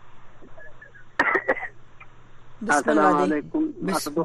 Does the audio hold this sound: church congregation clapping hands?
no

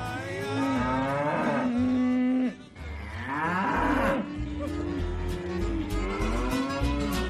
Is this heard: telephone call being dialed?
no

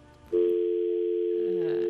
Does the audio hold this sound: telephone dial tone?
yes

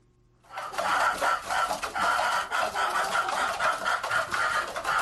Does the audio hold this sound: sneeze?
no

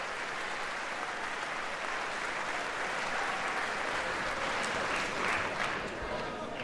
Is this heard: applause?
yes

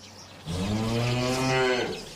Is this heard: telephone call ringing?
no

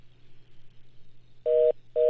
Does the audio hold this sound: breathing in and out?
no

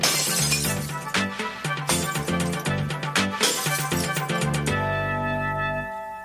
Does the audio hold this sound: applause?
no

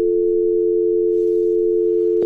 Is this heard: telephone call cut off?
yes

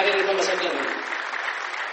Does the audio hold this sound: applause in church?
yes

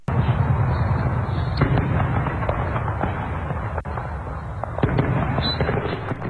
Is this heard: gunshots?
yes

